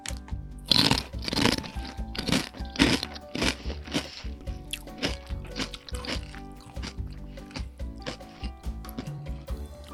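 Loud, sharp crunching bites and chewing of a crunchy, red, spicy, sour-smelling snack, with many crisp crunches in an irregular rhythm.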